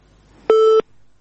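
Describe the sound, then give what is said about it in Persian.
A telephone tone sounds after a caller's line drops: one loud, steady electronic beep at a fixed pitch lasts about a third of a second, then falls to quiet line hiss. “تماس شنوندی ما قطع شد”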